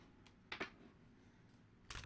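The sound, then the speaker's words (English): African tarot cards are handled and shuffled in two short bursts of papery rustling and crackling, quiet and separated by a near-silent pause. “So let's see what's going on here. Let's get some cards.”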